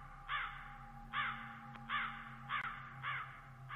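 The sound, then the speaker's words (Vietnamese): Crows caw at night, giving five harsh, faint caws spaced at fairly even intervals over a steady low hum. “Ngoài trời, tiếng côn trùng kêu inh ỏi, lác đác đâu đây, văng vẳng có tiếng quạ gọi đêm.”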